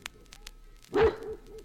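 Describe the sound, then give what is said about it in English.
A dog gives one short, fairly deep bark that rises out of a quiet background and trails off briefly. “And I'm going to play you a little dog bark just so you remember.”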